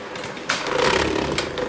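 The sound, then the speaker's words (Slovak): Mixing a crumbly mixture in a kitchen: after a short, quieter start, a loud, steady, rough whirring rasp begins abruptly and carries on to the end. “miešanie vám ide dobre, môžete pokračovať. Dobre, idem pokračovať. Tak, trošku pomiešame.”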